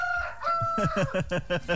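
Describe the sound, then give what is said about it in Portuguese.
A rooster crows a long, bright, sustained call, then breaks into a quick series of rhythmic clucking bursts that repeat steadily to the end, moderately quiet and alone. “Tem um galo, aliás, que mandou um galo aqui pra gente, foi? Cadê, rapaz, esse galo?”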